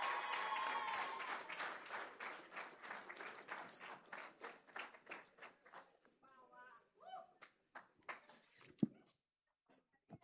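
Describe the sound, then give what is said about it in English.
An audience at a live stage show claps in steady unison rhythm, loud at first and then gradually thinning and fading until only a few scattered claps remain. “Clap your hands. Clap your hands.”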